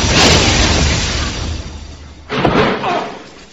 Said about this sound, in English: Quickly up. Before the fuel tank goes up.